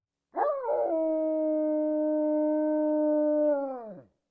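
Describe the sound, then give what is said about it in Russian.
A wounded alpha wolf gives one long, drawn-out howl on its own. It swells in quickly, holds a steady, rich tone for several seconds, then drops in pitch and fades at the end. “Альфа отскочил назад, облизывая кровоточащую рану, и издал протяжный вой.”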